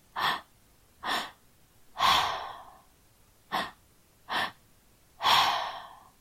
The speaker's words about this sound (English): It's inhale from the belly, inhale through the chest, and then an exhale through the mouth. So it sounds like this.